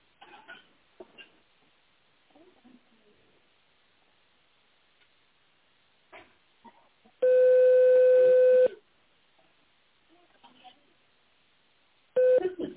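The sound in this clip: Telephone keypad tones dialing an extension number on a phone line. Two long, steady electronic beeps are separated by a quiet stretch, with faint, muffled speech on the line in between.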